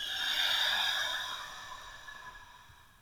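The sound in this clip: Slow exhale released after a held breath during a guided breathing exercise. A steady, airy rush that is fullest at the start and gradually thins and fades over a few seconds, with no voices.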